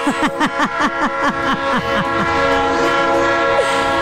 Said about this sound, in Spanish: Órale, pues si no es el tren que pasa ahí por las Américas, tú.